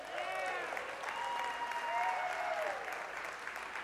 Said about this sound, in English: Come on, let's give the Lord another big shout.